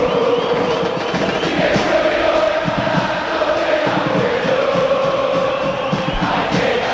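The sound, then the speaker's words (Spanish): San Lorenzo football fans in the stadium chant together in a loud, sustained sung chorus, with a rhythmic, continuous roar of many voices throughout. “Este es el ambiente. Así está la gente de San Lorenzo alentando al ciclón. Lo sentís. Lo escuchás en Radio La Red.”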